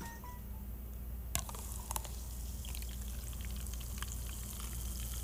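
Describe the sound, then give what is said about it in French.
A fizzy drink is poured into a glass, a steady soft hiss of bubbling fizz with a sharp click near the start and a few faint crackles, with no voices. “Fait que je vais en verser. OK, dans le micro magique, dans un verre.”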